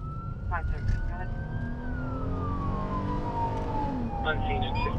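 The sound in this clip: A police car siren wails during emergency driving, its steady tone slowly gliding lower and then back up over a constant engine and road rumble, with a few short chirping bursts.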